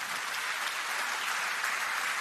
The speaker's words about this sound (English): That should be applauded, right?